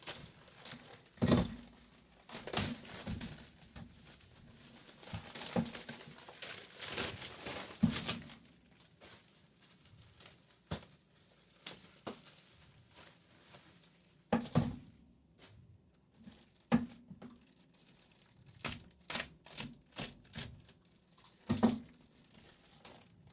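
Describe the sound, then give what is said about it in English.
Someone cuts and tears open a heavily taped parcel that was shipped from the UK. Faint scraping, crinkling and ripping come in many uneven bursts, separated by quiet pauses, with no talk. “Yeah, there's a lot of tape here to get it across the pond. So it's a matter of trying to cut this thing open without destroying everything.”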